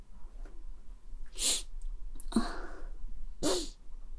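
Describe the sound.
Heavy breathing blown straight into a microphone: three loud, noisy bursts of breath spaced about a second apart over a low steady hum, with no talking.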